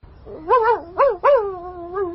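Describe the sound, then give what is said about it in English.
A dog howls and yelps in a few short whining cries that rise and fall in pitch, the last one drawn out and fading, with no talk. “Here you are. Poor dog.”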